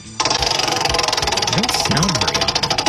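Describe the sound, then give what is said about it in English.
A game-show-style prize wheel clicks steadily and rapidly as it spins, a dense ticking rattle throughout, with a voice talking over it. “You get the first dibs to give the wheel a spin, like Price is Right style.”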